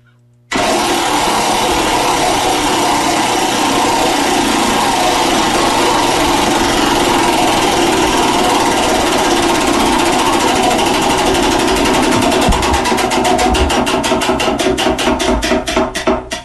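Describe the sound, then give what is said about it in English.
A prize wheel spins with loud, rapid ticking that blurs into a continuous rattle, then separates into distinct clicks that space out and slow near the end as the wheel winds down. “which means it's time to give the Wheel of Beamer a spin”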